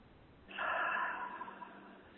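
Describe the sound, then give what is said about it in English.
A big breath taken in during a guided relaxation session: one long, breathy rush of air that swells quickly, holds for a moment, then eases off gradually, heard alone without talk. “Take a big breath.”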